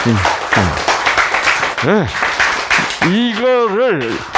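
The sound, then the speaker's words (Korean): Korean audience breaking into applause during a sermon, loud clapping with voices exclaiming and talking over it. “와, 박수!”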